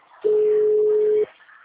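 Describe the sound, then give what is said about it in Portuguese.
A single steady low telephone tone sounds after a dropped call, holding flat for about one second before cutting off, over a faint background hiss. “caiu a ligação?”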